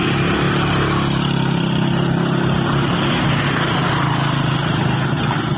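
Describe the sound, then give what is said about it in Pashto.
Vehicles move along a road in Bajaur where unbridged streams cross the route and traffic drives through below, giving a steady, continuous engine drone and rumble with no breaks. “دا کومه کارخانه نه بلکې د روانو گاډو آوازونه دي.”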